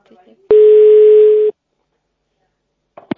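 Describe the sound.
A telephone dial tone sounds while a call is being placed: one loud, steady tone lasting about a second, with brief faint voice sounds just before and after it.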